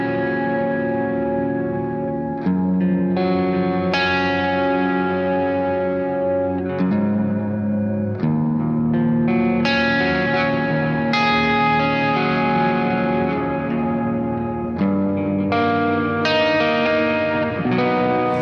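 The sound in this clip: Electric guitar played through a Neural DSP Quad Cortex ambient preset with slight drive: sustained chords and ringing notes change every few seconds, washed in echo and reverb, with no voices.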